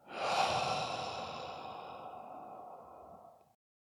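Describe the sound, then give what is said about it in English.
A slow, deep exhale is let out through the mouth as a single long, soft, airy breath. It starts fuller and fades gradually over about three and a half seconds into silence. “Another deep breath in through the nose. Letting it out through the mouth.”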